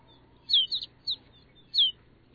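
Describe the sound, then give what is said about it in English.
Snow buntings, a sparrow-sized Arctic songbird, call from a flock in a barren landscape: a few short, thin, high chirps in quick bursts over a faint background. “Now it's clear that rolling white cloud isn't snow at all, but a flock of snow buntings. These birds bring the barren landscape to life.”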